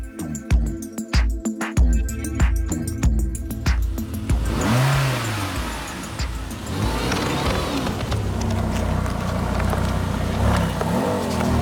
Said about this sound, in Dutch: Vader Dressler is hier in zijn eigen raceauto gekomen